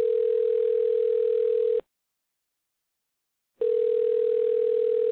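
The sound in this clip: Steady telephone dial tone while phoning a friend, a continuous single-pitched hum that cuts out for under two seconds of silence and then resumes unchanged.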